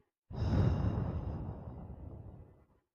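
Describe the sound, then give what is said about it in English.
A deep breath taken as a calming exercise: one long, airy rush of breath that starts strong and slowly fades over about two and a half seconds, alone with no talk. “Let's do another deep breath in through the nose. Out through the mouth.”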